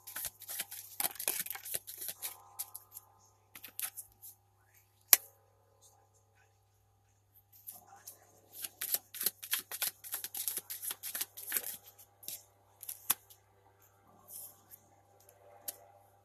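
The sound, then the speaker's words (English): Tarot cards are shuffled and drawn, making soft riffling and light slaps in irregular clusters. The sound is faint overall, with one sharper snap and a quiet pause in the middle before the shuffling resumes. “Let me pull three more cards”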